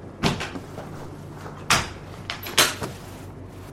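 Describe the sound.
A giant wheeled chest holding a record player and records is opened, giving a few sharp clunks and bangs with softer rattles between them, heard alone.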